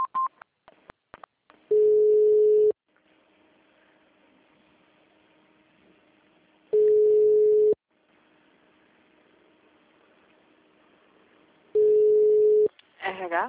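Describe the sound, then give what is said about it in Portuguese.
An automated phone system sounds its signal tone: three steady low-pitched tones, each about a second long, separated by long quiet stretches with a faint hum. A few sharp clicks come at the start. “Após o sinal, digite o ramal ou aguarde.”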